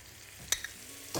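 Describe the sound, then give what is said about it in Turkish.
Flour is stirred into melted butter in a pan, making a faint, steady sizzling hiss broken by a couple of light spoon clicks and a brief scraping swell at the end. “Biz yemek kaşığı un koyuyorum. Tereyağını erittikten sonra evet.”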